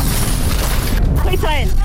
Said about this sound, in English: And there goes the bomb.